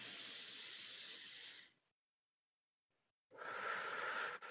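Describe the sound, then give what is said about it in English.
A deep inhale during a guided breathing exercise, a long soft airy hiss. After a silent pause, a second breath begins, with no talking. “Take two deep breaths. A nice inhale.”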